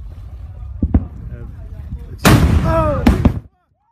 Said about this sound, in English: All the satellite images show a tremendous explosion followed by a gigantic shockwave that radiated out from the volcano at the speed of sound. This produced a sonic boom in many places.